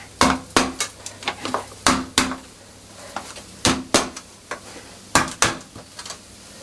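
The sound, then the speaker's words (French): Sharp knocks on a covered pot as it is tapped to unmould a farçon, many quick, bright strikes arriving in irregular clusters with short pauses between them, alone without speech. “Après, une technique qui aide aussi à le démouler. peut-être remettre le couvercle. S'il tient. C'est de taper un peu comme ça.”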